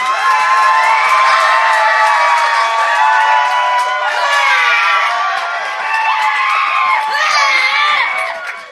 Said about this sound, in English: And if you guys want to see Carly wear that crown again, make some noise.